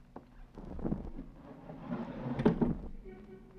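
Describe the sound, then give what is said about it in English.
A casement window being opened, giving a broad scraping, rattling sound that swells and peaks over a couple of seconds before easing off, with a faint low background murmur. “The casement open. It's much more pleasant, don't you think?”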